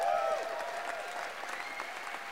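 Audience applause at a live show fills the whole clip as a dense, steady wash of many hands clapping. The level holds even throughout, with no break.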